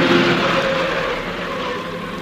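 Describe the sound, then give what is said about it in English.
A car driving along a road, heard as a steady engine drone with a low hum that eases slightly toward the end, with no voices. “You may drive us home. Turn right at the next corner.”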